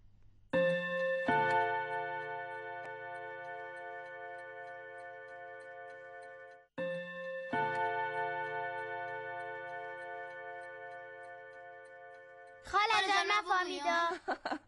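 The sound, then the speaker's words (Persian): A large clock chimes with a few deep, bell-like strikes whose rich tones ring on and fade slowly, in two separate groups, before a voice begins speaking at the end. “صدای ساعتای کلان بود. صدای ساعتای کلان. البته صدای زنگ ساعت بود.”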